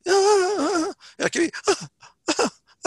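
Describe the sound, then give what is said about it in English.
A person imitates a shofar's broken shever blast with a groan: a long, loud groan with wavering pitch, followed by a few short, broken vocal bursts separated by brief gaps. “You can hear that there's some different sounds in that groan”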